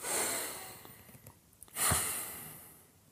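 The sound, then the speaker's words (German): A slow, deep breath taken as a calming exercise: two long, soft, airy rushes of breath, one at the start and a fuller one near the end, each swelling and then fading away. “einmal tief durchatmen. Atme ein, zweimal tief durch”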